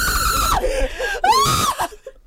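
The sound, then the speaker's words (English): A crowd screaming at a soccer match in New Jersey: loud, shrill, sustained screams in two bursts. The first dips in pitch and the second breaks off abruptly. “Screaming.”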